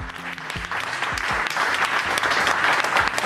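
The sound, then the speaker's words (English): Round of applause as the first person in the United States receives the Pfizer vaccine, rough-sounding and steady, with a few voices talking near the start before the clapping fills in. “The audio is a little rough, but you can hear a round of applause as Sandra Lindsay officially becomes the first person in the United States to get the Pfizer vaccine.”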